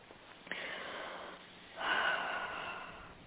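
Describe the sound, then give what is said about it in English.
A faint deep breath is drawn during a guided tapping and healing meditation, heard as a soft, airy rush of breath that swells briefly over a steady low hiss. “And take a deep breath.”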